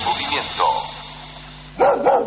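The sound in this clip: Guard dog barking in a few short bursts, with a steady low hum running underneath and a louder burst of barks near the end.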